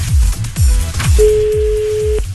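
A telephone tone sounds while a call is being placed: a single steady pitch held for about a second. A repeating low, thumping beat runs underneath it.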